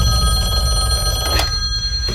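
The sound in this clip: An outgoing telephone call rings, heard as a steady, loud, buzzing tone with a layered electronic pitch that runs unbroken for about two seconds.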